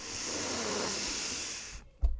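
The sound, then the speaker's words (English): A deep, full breath taken during a guided breathwork exercise: a steady, airy rush of air sustained for nearly two seconds, then a short, soft low thud. “Last three breaths with me. Fully in. And let go.”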